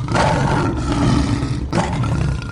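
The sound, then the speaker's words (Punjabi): A lion roars as a story sound effect for a guru taking a lion's form to frighten an emperor: a long, deep, rumbling roar, loud throughout with one short break before it resumes. “अते गुरु जी ने उसनू शेरा तो बचा लिया। अगले दिन उन्होंने फिर शेर का रूप धारण कर लिया अते बादशाह नू डराया।”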